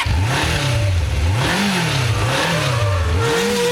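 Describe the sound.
A car engine revs repeatedly, its pitch climbing and dropping in a few broad waves over a loud, continuous mechanical drone with no talk.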